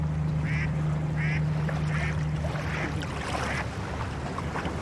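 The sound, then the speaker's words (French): Low engine hum of a very flat barge carrying sand, with a small white flag at the bow, passing on water as its waves die down. The hum fades out partway through, and a few short repeated calls sound above it. “Ce que je trouve très agréable là, c'est de à la fois d'entendre la façon dont les vagues doucement diminuent et s'éteignent, et en même temps que le bateau, le bruit du bateau doucement s'éloigne.”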